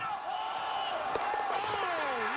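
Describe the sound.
Australian rules football stadium crowd noise around a set-shot kick: a broad, steady roar from a large crowd, with a loud voice calling over it in long, rising and falling tones.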